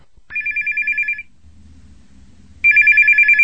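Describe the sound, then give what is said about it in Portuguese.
A telephone rings twice for an incoming call, each ring a bright, warbling electronic trill of rapid pulses, with a pause between them carrying only a faint low hum. “Assim que o homem foi embora, Pedro ligou para Valdemar.”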